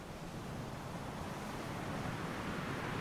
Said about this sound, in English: as you are cheered on by the crashing waves. The wind blows your hair,